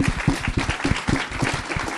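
Audience applause for cast and crew members at an event: a dense, steady patter of many hands clapping, with scattered louder claps standing out through the stretch.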